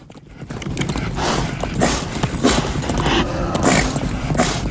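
Galloping hooves of racehorses in a race over hedges and fences, a dense, steady drumming of hoofbeats that carries on without a break for the whole stretch.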